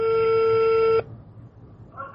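Telephone tones as a number is dialed for a call: one steady, clear beep lasting about a second, then near silence, then a fainter tone that begins just before the end.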